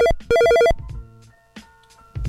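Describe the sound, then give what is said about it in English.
A telephone rings with an incoming call in two loud bursts of a bright, warbling electronic trill, the second longer, followed by soft handling clicks. “Oh, we got a caller right now. Let me see who calling in, man.”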